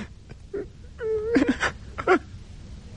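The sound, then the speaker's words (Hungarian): A voice wails and whimpers in a few drawn-out, quavering cries from a character about to be thrown into a pit, moderately loud, with brief pauses between the bursts. “De hiszen még tud sírni.”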